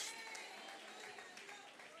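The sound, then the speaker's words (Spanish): An audience claps in praise during a church service, a steady and fairly faint patter of many hands that runs through the whole clip. “Dele palmas de alabanza al Cristo de la gloria.”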